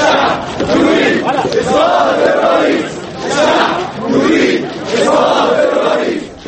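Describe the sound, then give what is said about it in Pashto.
Protesters in Cairo's central square chant slogans demanding Mubarak's resignation, a loud mass of voices rising and falling in steady rhythmic swells that repeat throughout. “په مصر کې نن سلګونه کسان د قاهره په مرکزی چوک کې راټول شول او یو ځل بیا یې د ولسمشر حسنی مبارک د استعفا غوښتنه وکړه، او په شعارونو کې بیا بیا ویل چې خلک غواړي ولسمشر دې ګوښه شي.”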